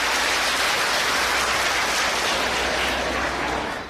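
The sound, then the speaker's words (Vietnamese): Applause from an audience at a Buddhist teaching session: dense, sustained clapping that fills the whole stretch with a hissing wash and eases slightly at the very end. “10 điểm, một tràng pháo tay thật lớn.”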